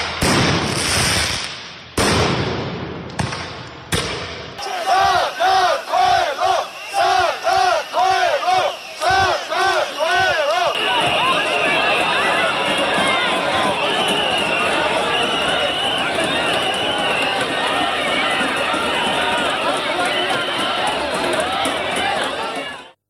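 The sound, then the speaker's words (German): Street protest in Tbilisi, Georgia, with rubber bullets and tear gas: a few sharp, loud bangs open, then a crowd chants in rhythmic bursts before swelling into a dense, continuous roar of many shouting voices. “Protestrufe, Trillerpfeifen, Gummigeschosse und Tränengas. Was man hier hört, sind die Proteste auf den Straßen der georgischen Hauptstadt Tbilisi, die schon seit fast 2 Jahren anhalten.”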